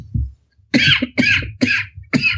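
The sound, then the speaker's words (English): Coughing: four rough, forceful coughs in quick succession, each a harsh burst, loud and alone with no talk over them. “Keeping your coughing in.”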